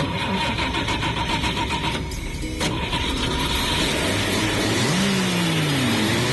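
A Chevrolet Chevette engine starts and the car drives off. A steady, loud mechanical hum briefly dips as the engine catches, then an engine note climbs in pitch as the car accelerates away.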